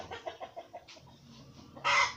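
Rooster sounds, with a run of short, rhythmic clucks followed by a sudden loud, harsh call at the end.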